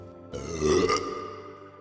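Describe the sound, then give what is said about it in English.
A single long, deep burp swells to a loud middle and then trails off gradually. “And when that happens, well, Baba Badaba burps.”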